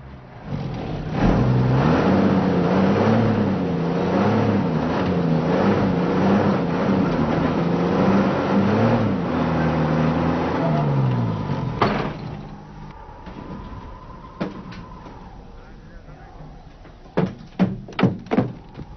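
Engine revving of a bus stuck in dirt while people push it: a loud, wavering hum swells and dips for about twelve seconds, then drops to a quieter rumble, with a few sharp thuds near the end.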